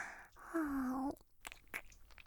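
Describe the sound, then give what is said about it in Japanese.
Wet ear-licking mouth sounds, made as part of an adult ear-licking roleplay: soft slurps and a few brief smacks and clicks, fairly faint, with a short low voiced tone partway through and no talk. “耳なめしてあげるね。お耳さん、いただきます。”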